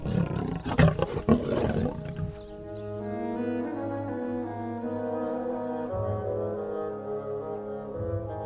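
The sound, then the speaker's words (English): Lions roar in deep, rough, rumbling bursts for about two seconds, then the sound gives way to a long, sustained low droning tone that holds steadily to the end. “There was no mistaking what it was. Even though they had never heard the sound before, they knew it was the roaring of lions.”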